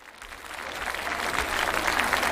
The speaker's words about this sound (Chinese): 来吧，我们再次掌声送给海洋。